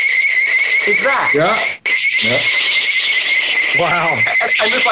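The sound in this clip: Shrill, warbling screech of giant ants from a monster film, played as the hallway sound in a jungle-themed bar, holding a steady high, piercing pitch throughout while people talk over it.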